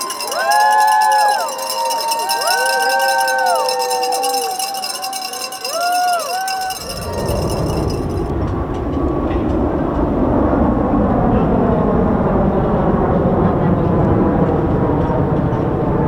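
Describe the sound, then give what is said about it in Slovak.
Cheering and chatter of about 200 American athletes, coaches and officials boarding a plane to Beijing at the Los Angeles airport; a few bright electronic tones come first, then a loud, steady crowd roar of voices. “Takto to znelo na letisku v Los Angeles, keď zhruba 200 nadšených amerických športovcov, trénerov a funkcionárov nastupovalo do lietadla smer Peking.”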